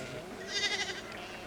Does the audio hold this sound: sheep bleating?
yes

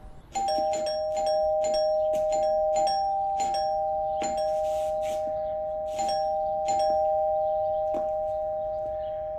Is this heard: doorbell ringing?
yes

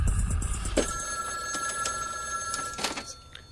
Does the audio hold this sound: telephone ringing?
yes

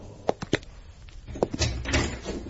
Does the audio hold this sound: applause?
no

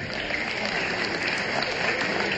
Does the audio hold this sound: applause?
yes

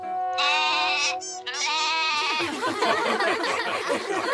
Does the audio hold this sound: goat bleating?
yes

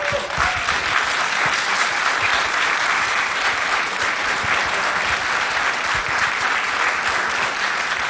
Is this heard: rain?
no

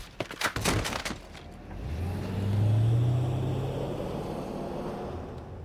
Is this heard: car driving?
yes

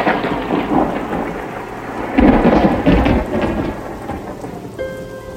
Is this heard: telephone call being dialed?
no

